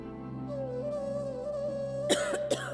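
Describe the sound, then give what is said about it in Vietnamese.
Two sharp coughs burst out near the end, a sudden coughing fit from a young woman, cutting over a steady sustained musical tone. “Bỗng một cơn ho bất chợt kéo đến, làm nàng đánh rơi mâm lá dâu xuống đất. Nàng lấy tay che miệng, ngăn cơn ho đang chợt trào.”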